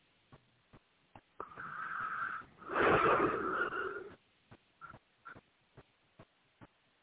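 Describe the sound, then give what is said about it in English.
A deep breath during a guided relaxation: a soft inhale lasting about a second, then a longer, louder exhale, followed by a few faint short clicks. “Take a nice deep breath.”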